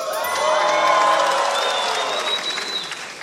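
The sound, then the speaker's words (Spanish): A live comedy show audience applauds and cheers, with whoops rising above a thick, sustained wash of clapping that swells early and then slowly eases. “Pido un fuerte aplauso para Datos de Protección a Testigos.”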